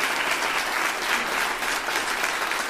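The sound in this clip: Audience applause at a question-and-answer session, dense and steady clapping from a crowd that stays loud and even throughout without a break.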